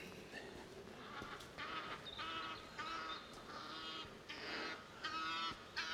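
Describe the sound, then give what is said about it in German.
Geese honk while flying in formation, sending out many faint, harsh, nasal calls in an overlapping, irregular chorus. “Angriff der Kampfgänse. Die fliegen hier in Formation.”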